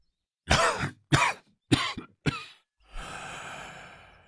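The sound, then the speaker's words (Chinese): Hoarse coughing from an old emperor leaning with both hands on a wooden cane: a few sharp, loud coughs in a row, then a long, raspy, breathy exhale. “崇安帝双手扶在木拐上，咳了两声，喘息道”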